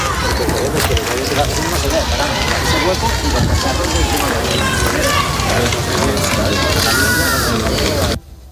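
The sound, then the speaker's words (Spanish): Crowd of wildfire-affected residents cheering and shouting for King Felipe and Queen Letizia outside the Forest Coordination Centre in Verín; dense, loud massed voices roar steadily for about eight seconds, then cut off abruptly. “gritos de Vivan los Reyes, vecinos afectados por las llamas, agradecían la visita de don Felipe y doña Leticia, que los saludaban a las puertas del Centro de Coordinación Forestal de Verín. Este es el momento en el que recibía el público a los Reyes.”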